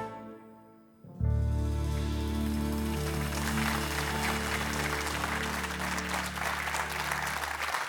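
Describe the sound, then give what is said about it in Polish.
Audience applause after a concert performance with the Polish Radio Orchestra in Warsaw bursts in abruptly after a second of quiet, then continues as loud, dense, steady clapping under a sustained low musical chord. “Brawa dla Kasi, towarzyszącej nam przez cały dzisiejszy wieczór Orkiestry Polskiego Radia w Warszawie pod dyrekcją Grzegorza Urbana.”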